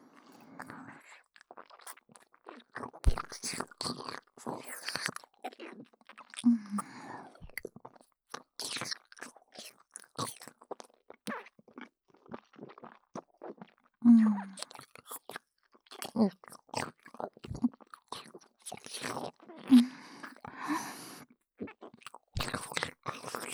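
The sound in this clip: Someone eats, with many quiet, crunchy bites and steady chewing in irregular bursts and short pauses between mouthfuls.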